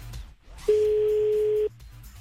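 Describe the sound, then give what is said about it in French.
A telephone ringback tone sounds as a call is placed to a vehicle breakdown service: one steady, mid-pitched tone lasting about a second, heard alone over faint background noise. “Bon, allez, on y va, on appelle donc.”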